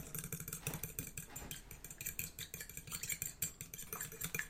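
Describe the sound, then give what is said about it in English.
Batter ingredients are mixed together in a bowl, making quiet, fast, rhythmic scraping and clinking with no talk. “Alright. So, after we finish mixing all these ingredients up together, we will dip these sugared eggs into the batter.”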